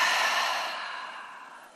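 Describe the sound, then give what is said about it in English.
Breath pushed out through the mouth during a standing breathing exercise: one steady, airy exhale that begins fairly loud and tapers off smoothly over under two seconds, with no voices. “Inhale. Breathe out your mouth.”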